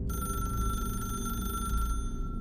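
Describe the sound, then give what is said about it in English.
A telephone rings with a steady, continuous bell tone for nearly two seconds and then stops, over a low rumbling background. “there's a phone ringing.”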